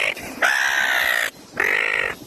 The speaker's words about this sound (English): Suddenly, a seagull crashes the shot.